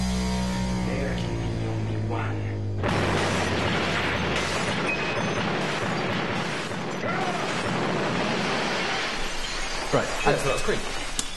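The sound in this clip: Car crash involving an overtired driver: a steady tone gives way to a sudden loud smash of breaking noise, which continues as rough, dense clatter and rumble with scattered sharper knocks until the end.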